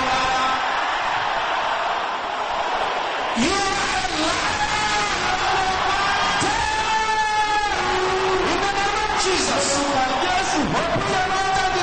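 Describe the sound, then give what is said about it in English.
A crowd shouts loudly, a layered mass of yelling voices that swells in from a quieter start and stays loud and sustained, with overlapping cries rising and falling. “Can I hear everybody shouting this loud?”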